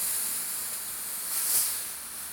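A handheld clothes steamer hisses steadily as shirts are steamed. The breathy, high hiss holds constant, swells briefly partway through, then eases back.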